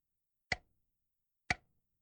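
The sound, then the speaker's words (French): Two crisp ticks from a large clock in a quiet house, spaced exactly one second apart, each a sharp isolated click with a short decaying tail and silence between. “La grosse horloge ronflait.”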